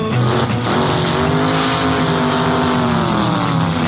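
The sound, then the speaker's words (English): Ford Mustang engine roaring at full throttle as the car accelerates: a loud, continuous, dense roar that holds steady throughout. “I started to make that Mustang unwind. Pushed the foot feet clear to the floor, said, that's all there is. There ain't no more.”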